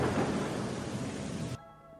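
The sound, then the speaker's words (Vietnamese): Heavy rain pours down with thunder near a deserted temple and ponds, a faint, dense, even hiss with low rumble that stops abruptly, leaving only a quiet hum. “tia chớp sáng chói vang lên khiến cho ngôi chùa hoang này gia tăng thêm vài phần kinh khủng. Đồng thời mưa nặng hạt cũng bắt đầu rơi xuống, chạm xuống mặt đất vang dội.”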